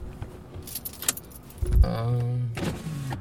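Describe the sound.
A car's electric window whirs down with a steady motor hum, preceded by a few light clicks and rattles inside the vehicle.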